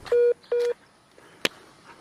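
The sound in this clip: Two short, steady low-pitched beeps sound on a telephone line as a call cuts off and disconnects, followed by one sharp click and faint line noise.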